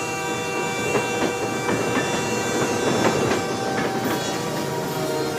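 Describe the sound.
A train passes on the Santa Fe railway main line with a steady, even rumble, faint rhythmic clicking of wheels over the rails, and a brighter hiss creeping in toward the end.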